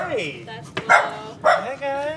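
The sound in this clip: A couple of dogs in a modest condo bark a few times, short sharp yaps mixed with higher whiny, whimpering tones.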